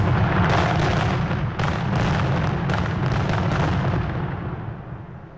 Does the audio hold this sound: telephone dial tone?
no